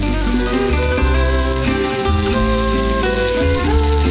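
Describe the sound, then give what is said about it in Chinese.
Steady, loud sizzling of about one kilogram of local ground strip chili poured into hot oil off the heat and stirred continuously while making chili oil with fermented black beans. A dense, even crackle runs throughout without pause. “倒入本地2斤条辣椒面，持续搅拌，释放辣味因子。”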